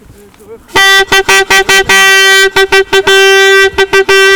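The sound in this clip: A vuvuzela blares at a noise protest outside a detention centre, giving loud, buzzy, steady low-pitched blasts broken by many short gaps.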